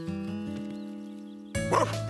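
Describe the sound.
A big dog's loud bark bursts in after a sustained musical chord, a single gruff woof that lands abruptly over the continuing music.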